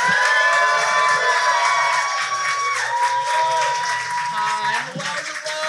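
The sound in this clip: An audience applauds and cheers for a performer on stage: a loud, continuous wash of clapping with shouting voices over it throughout.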